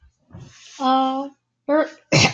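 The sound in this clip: Throat clearing and coughing come as short rough bursts mixed with voiced, hum-like sounds, separated by brief pauses and ending in a sharp, harsh cough.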